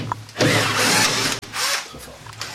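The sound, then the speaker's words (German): A cordless screwdriver drives screws while shelves are dismantled, its loud whirring running for about a second, cutting out briefly, then resuming in shorter, fading bursts. “Und natürlich der Akkuschrauber unter anderem, damit du die Schrauben rein und raus kriegst, logischerweise.”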